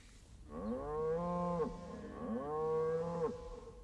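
Cattle on a ranch moo twice, each call a long, low, droning tone that bends downward at its end, over a steady background hiss.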